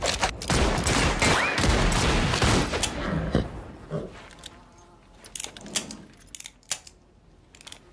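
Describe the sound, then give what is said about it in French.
Gunfire: a dense, loud burst of rapid shots lasting about three seconds, then a few scattered, sharper cracks over a quieter background. “Qu'est-ce qu'on fait? On les flingue.”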